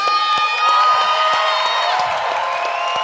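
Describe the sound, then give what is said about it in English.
A live audience cheers and whoops in a loud, sustained wash of crowd noise, with a few sharper claps or shouts breaking through and a faint tonal ring running underneath. “So, Tim, a strange amount of applause.”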